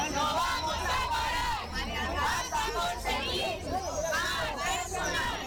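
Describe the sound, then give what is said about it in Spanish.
A protest crowd chants slogans in Spanish at a demonstration in Segovia, called by the health and family works committee of the Junta de Castilla y León to demand more staff in care homes. The voices are loud, rhythmic and shouted together. “Este es el sonido de la manifestación convocada por el Comité de Empresa de Sanidad y Familia de la Junta de Castilla y León en Segovia”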